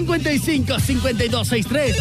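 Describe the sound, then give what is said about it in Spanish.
A warbling electronic telephone ring signals an incoming call during a phone-in vote, with voices mixed in over it. “Tenemos llamada.”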